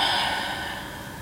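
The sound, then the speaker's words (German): A deep breath during a guided relaxation exercise, drawn in through the nose and let out through the mouth, heard as a single soft, airy rush that fades slowly, alone without talk. “Dann atme nochmal ganz tief ein durch die Nase und durch den Mund aus.”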